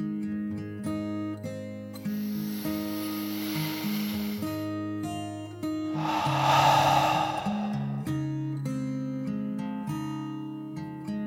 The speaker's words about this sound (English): Then she took another deep dragon breath, in and out.